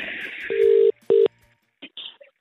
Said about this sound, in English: Phone's ringing.